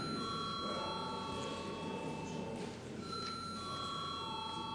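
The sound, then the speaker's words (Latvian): A bell rings to call members of parliament to a vote, a steady sustained metallic tone that dips briefly partway through before resuming; no voices. “Lūdzu zvanu.”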